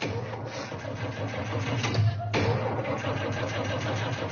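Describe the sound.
A car engine cranks as someone tries to start it, a steady, churning mid-pitched mechanical noise that runs through the whole clip with a brief dip partway through. No voices are heard.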